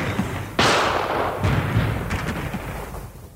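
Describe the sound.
Gunshots from fighters firing from behind an earthen bank dug along a ditch: one loud, sharp blast early on, then a few fainter cracks over continuous rumbling noise.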